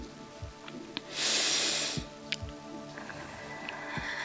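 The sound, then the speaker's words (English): A single deep breath drawn in, a soft, airy hiss lasting about a second against a quiet background, with no voices. “take a moment, and just take a deep breath in.”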